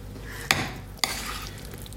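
A pot is stirred during cooking, and two sharp clinks of a utensil against it come about half a second apart over a soft, steady background.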